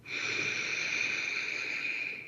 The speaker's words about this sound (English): I want to encourage you to take a breath.